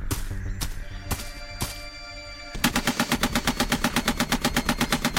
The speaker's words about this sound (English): This time, a full mag on full auto.